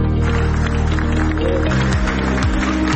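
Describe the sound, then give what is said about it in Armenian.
Applause from a large gathering of party members at a lengthy meeting in Goris: a dense, steady wash of clapping that runs unbroken through the whole stretch at an even, fairly loud level. “Նիկոլ Փաշինյանը 30 վայրկյանանոց տեսանյութ է հրապարակել, որտեղ լսվում են միայն ծափահարությունները։”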